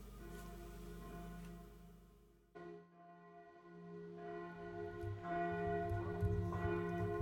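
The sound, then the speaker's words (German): Bells of a large, old Roman Catholic church ring on a Sunday morning to call worshippers to service, giving fairly faint, sustained, overlapping tones that dip briefly partway through and then swell again. “Und was Sie da gerade hören, das ist nur ganz zufällig, die Glocken von römisch-katholischen Kirchen, der großen alten Frauenkirche, die gerade die Gläubigen zum Gottesdienst ruft.”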